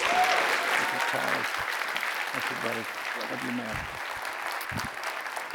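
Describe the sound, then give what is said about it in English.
Audience applause welcoming a guest preacher to the pulpit at a church service: a sustained, even wash of clapping that slowly tapers off, with a voice speaking over it. “Would you put your hands together and welcome Dr. Michael Catt.”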